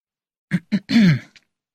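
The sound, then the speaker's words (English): A man gives a little cough to clear his throat: two short voiced huffs, then a longer gravelly rasp and a faint final click, moderately loud and alone. “He stood up and gave a little cough.”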